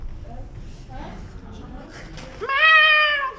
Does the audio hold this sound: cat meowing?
yes